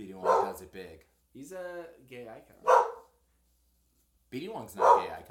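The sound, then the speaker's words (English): A dog barks and yips in short bursts under continuous conversation between several people. “Sorry, guys, that was my dog.”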